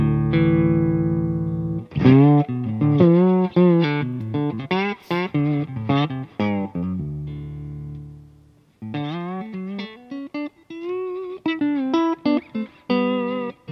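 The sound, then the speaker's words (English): Electric guitar in a clean tone on the neck pickup, played alone: a brief sustained chord, then a run of plucked notes and chords, a held ring-out with a short pause, then more melodic picking. “So let's hear what this guitar has to say. Okay, sounds like this. Just clean, neck pickup.”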